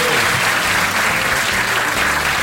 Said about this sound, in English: So, once again, a round of applause please for Mark Watson.